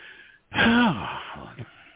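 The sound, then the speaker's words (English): A person takes a single audible breath, a voiced, sigh-like exhale that falls in pitch over about half a second, then trails off into quieter breathy noise. “I think I'll take a breath.”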